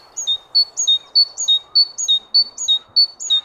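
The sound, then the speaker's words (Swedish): A great tit sings in late winter, repeating a bright whistled two-note phrase, a higher note dropping to a lower one, many times in a steady, even rhythm. The clear, loud notes stand alone over a faint background hiss. “Vi ska komma ihåg att det är talgoxen.”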